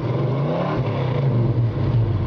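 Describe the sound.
A 1966 Ford Mustang V8 engine revs in a steady, deep, throaty rumble that stays loud throughout, its low pitch wavering slightly as the revs hold.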